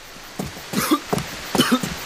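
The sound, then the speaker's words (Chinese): Coughing from a father who has caught a chill: a few short, harsh bursts in quick succession, moderately loud and alone without talk. “咳了，着凉了吧？”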